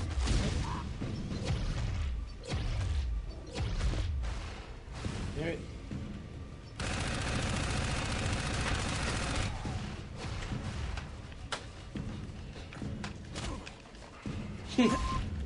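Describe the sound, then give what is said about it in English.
Grenade launcher fire and other gunfire in a video game, with many sharp blasts and bursts scattered throughout and people talking over the action. “He's shooting grenade launchers. Throw a nade. Chuck it. He missed.”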